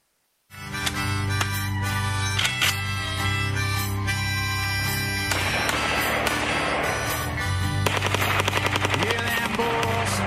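Rapid gunfire from a Tulsa group's firearms arsenal: dense bursts of many sharp shots, loud and continuous, growing thicker toward the end over a steady droning background.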